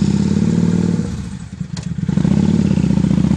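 A motorcycle rides off in the dark. Its engine gives a loud, steady low rumble that dips briefly midway and then returns to full strength, with no voices.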